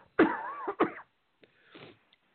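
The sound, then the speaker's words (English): A person clears their throat. A rough, voiced rasp leads into a sharp, harsh burst. A faint breathy trailing sound follows. The sounds are heard alone. “pardon me, I got to clear my throat.”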